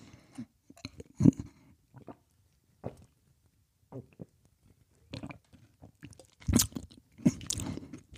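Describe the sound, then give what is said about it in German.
A big gulp of a drink, heard as a string of soft, wet mouth and swallowing noises with quiet gaps between them and a louder cluster near the end. “Und jetzt nehme ich einen großen Schluck.”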